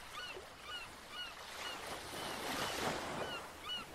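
Sea waves wash steadily onto a sandy beach, with a continuous surging hiss that swells and ebbs. Repeated short bird cries sound above the surf.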